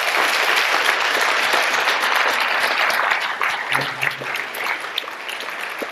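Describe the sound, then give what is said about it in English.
A Cala Mesa Church audience applauds to welcome two newly baptized young men: dense, steady clapping that holds loud for about three seconds, then eases slightly while continuing to the end. “Church family, would you join me in welcoming these two young men as part of our Cala Mesa Church family? Will you give them a hand?”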